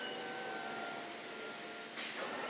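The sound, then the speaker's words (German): The lower half of a toilet-bowl mould in a factory moves downward, giving a steady, quiet mechanical hum with a faint tonal whine that shifts abruptly near the end. “Da, jetzt geht's los. Die Unterseite der Form fährt nach unten.”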